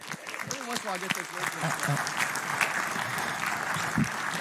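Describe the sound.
An audience applauds as a speaker is welcomed to the stage at a church gathering. The clapping is dense and steady throughout, with a voice speaking briefly over its start.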